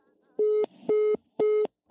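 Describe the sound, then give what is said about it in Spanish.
A telephone busy tone after a dropped call: rapid, evenly spaced mid-pitched beeps, three full ones and the start of a fourth, over faint background noise. “se cortó la llamada con Mariana Gómez del Campo”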